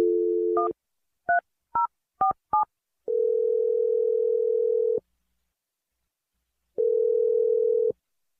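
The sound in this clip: A telephone number is dialed: a steady dial tone, then a quick run of beeping touch-tone digits. Two long, even ringback tones follow, separated by a silent gap.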